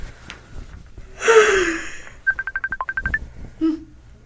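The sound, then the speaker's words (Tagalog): Phone ringing with an incoming call: a quick run of many short, even electronic beeps at a steady high pitch, after a louder breathy burst and followed by one brief lower tone. “Si Nathan tumatawag. Masagot na nga.”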